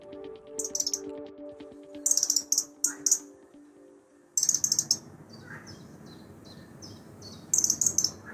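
Robin song from a young robin not yet showing its red breast: short, high, twittering phrases in several separate bursts with pauses between, over a faint steady background hiss.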